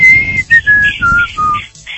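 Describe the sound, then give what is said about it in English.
Whistling of a short call, a run of clear, sustained notes that step downward in pitch, with brief gaps between them, heard over a low rumbling background. “they did the whistle.”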